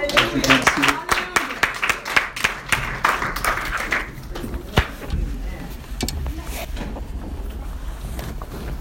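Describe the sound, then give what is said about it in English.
A church audience claps their hands in a steady rhythmic beat, loud and regular at first, then thinning into scattered claps after about four seconds. “Come on, clap your hands and”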